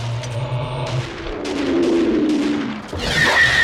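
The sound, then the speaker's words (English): Two people keep firing guns at a creature. Loud, overlapping shots come in booming bursts over a deep rumble, and the sharp reports grow heavier toward the end. “He tosses her an ammunition cartridge. And the two of them keep firing.”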